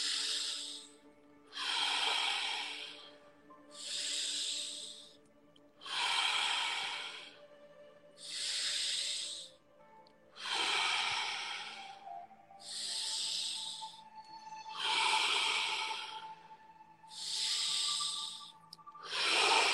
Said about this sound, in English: Couple more deep breaths. Inhale through the nose, exhale through the mouth.